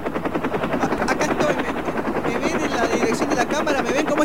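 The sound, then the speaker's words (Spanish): Helicopter noise, a dense, steady chopping roar of rotor blades that fills the whole clip, with voices talking over it. “habla más fuerte porque el ruido del helicóptero”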